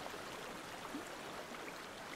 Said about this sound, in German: Das Wasserrauschen veränderte sich und kündigte bereits den Wasserfall an, den wir kurz darauf erreichten.